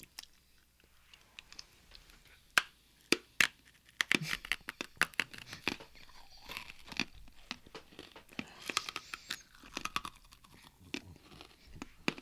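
Chewing on hard candy that tastes like a Tootsie Roll, with many crunchy cracks, clicks and crinkly bites in an irregular rhythm, loud snaps standing out against quieter mouth sounds.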